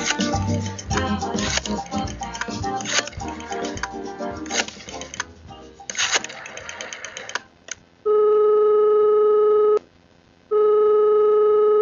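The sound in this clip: A telephone rings with an electronic tone, two long steady bursts separated by a short break. A few seconds of dense, busy sound come before the ringing.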